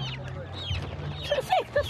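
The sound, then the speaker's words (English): Chicks cluck and chirp in quick, high, rising peeps as a woman puts them into a white fertiliser bag, with a steady low hum and some voices underneath. “Across the way, the woman with chicks is doing better. She's putting some of them into a white fertiliser bag.”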